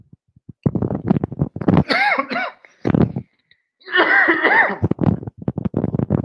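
Coughing after something went down the wrong pipe: a fit of harsh, rapid coughs with strained, voiced gasping between bursts, loud, breaking off briefly midway before resuming in shorter hacks.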